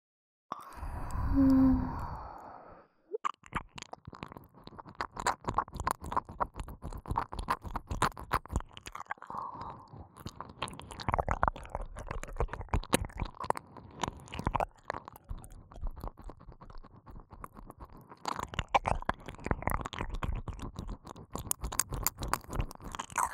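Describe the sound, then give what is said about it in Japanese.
Wet ASMR ear licking, saliva washing out earwax, heard as many close, moist clicks, smacks and slurps in a steady, uneven stream, opening with a brief louder voiced hum before the licking begins. “こんな臭いものを耳の中に入れていては病気になってしまいますから、私の唾液でしっかりと耳かす洗いさせていただきますね。”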